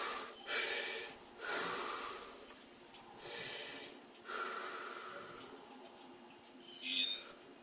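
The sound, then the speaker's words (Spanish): Slow, deep breaths during a guided breathing exercise: several long inhales and exhales as soft, airy rushes, each swelling and fading with short pauses between. “Inhala, exhala. Inhala, exhala. Adentro, afuera hasta el estómago, al pecho y suelta,”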